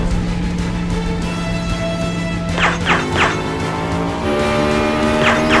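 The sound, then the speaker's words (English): Tires shot out during a car chase, with a car spinning out of control: a steady engine roar broken by a few sharp hissing bursts, then the engine tone shifts as the car loses control, with another burst near the end. “Got his tires. He's spinning out of control.”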